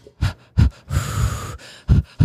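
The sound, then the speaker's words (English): A person demonstrates a rhythmic breathing technique used while cycling uphill: short, sharp puffs of breath, with a longer, drawn-out noisy breath in the middle, then more quick puffs. “I have a little breathing technique that sounds like this.”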